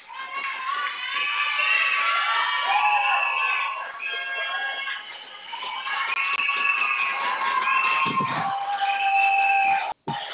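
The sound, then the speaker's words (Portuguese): Happy crowd cheering and shouting, with many overlapping voices at once, some high and child-like. The roar stays loud and steady throughout, dips briefly midway, and cuts out for a moment near the end. “Desculpa o barulho, o pessoal tá feliz aqui.”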